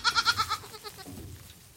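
A newborn goat kid bleats on its first day while being bottle-fed its mother's colostrum, giving one high, quavering cry made of rapid pulses that fades away.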